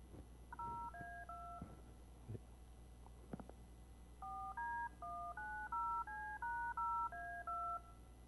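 Faint DTMF telephone dial tones play back from a web file: a short burst of a few tones, some scattered clicks, then a longer, steady run of many evenly spaced tones.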